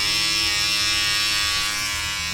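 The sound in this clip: Repaired electric hair shears, their screws tightened and their parts cleaned and oiled, run with a loud, steady buzzing hum at a constant pitch, heard alone throughout.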